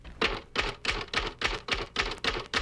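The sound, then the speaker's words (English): Typewriter keys are struck sharply and released quickly during a typing drill: nine crisp, evenly spaced clacks in a steady rhythm, each a short bright strike with a brief tail, with no voices. “Before striking the key, slightly raise each finger, then depress sharply, releasing the key quickly as follows.”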